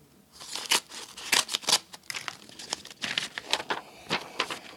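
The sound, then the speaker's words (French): Paper envelopes of donation cheques are torn open and rustled in the Greens' headquarters office, with a quick run of crisp rips and crackles that come in irregular bursts at a moderate level. “C'est des dizaines d'enveloppes qu'on ouvre tous les jours.”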